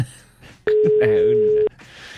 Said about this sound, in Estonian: Äkki selle kõne saab nüüd vastu võetud või? No come on. Ei ole täna meil seda edu. Ei ole kõne õnnev.